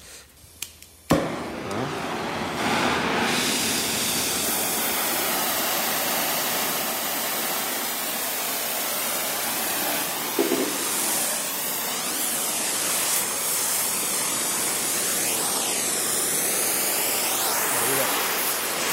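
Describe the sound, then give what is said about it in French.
A blowtorch heats metal for a hot-rivet joint of the kind used on the Eiffel Tower. A couple of clicks and a pop are followed by a loud, steady, roaring hiss that holds on without a break. “Après on allume le chalumeau, logiquement on fait ça à la forge, mais là...”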